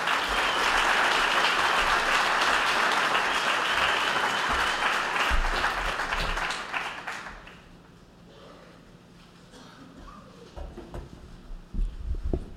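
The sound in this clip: An audience at a Mission Sunday church service applauds to welcome a speaker: dense, loud clapping for about seven seconds, then it dies away, leaving faint scattered taps and thumps.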